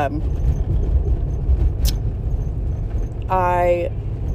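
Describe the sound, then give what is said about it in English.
A car driving over a very bumpy road that rattles it hard: a continuous low rumble with a few soft knocks scattered through it. “Sorry, guys, I'm on a real bumpy road here. It's rattling the heck out of my car.”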